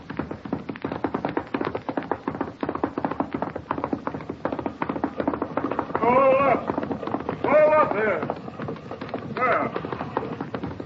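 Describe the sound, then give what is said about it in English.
Horses and wagons gallop closer in a Western drama, a dense, steady clatter of rapid hoofbeats and rattling wheels that never pauses, with brief voices breaking in over it. “A bunch of wagons and riders coming this way.”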